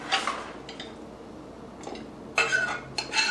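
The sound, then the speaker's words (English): Faint, irregular clinks and scrapes of a utensil against a pot and dish as mint meat curry is served, with a louder clatter near the end. “Let me just serve it onto my dish.”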